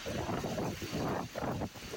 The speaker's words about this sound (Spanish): Mirá, para que se mueva así un eucaliptus es porque las ráfagas del viento son importantes.